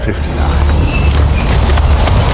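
A train runs on rails with a loud, continuous rumbling rattle and thin high squealing tones above it.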